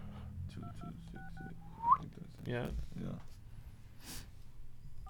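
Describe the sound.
Telephone keypad dialing an area code: a few short, steady two-note beeps, with people talking and other noises in the background.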